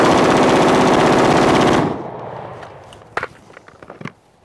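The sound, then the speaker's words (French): An AR-15 rifle fires in sport shooting: a dense, rapid, unbroken stream of shots for nearly two seconds, then a fading ring and a few scattered sharp clicks. “La R15 en mode tir sportif par un certain Irak”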